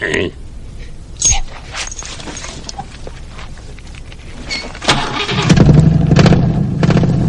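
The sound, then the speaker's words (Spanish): A 1958 Plymouth Fury's engine starts after some clunks and brief voices, then settles into a louder, steady low rumble over the last couple of seconds. “el bello Plymouth Fury de 1958. Ponlo en marcha.”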